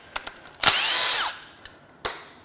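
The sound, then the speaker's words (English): A power tool zips out engine timing cover bolts, one sustained high, whining burst lasting about half a second, framed by a few light metallic clicks and a sharp clack afterward. “Now, I'm gonna start zipping out timing cover bolts in ascending order, which means smallest bolts first, largest bolts last.”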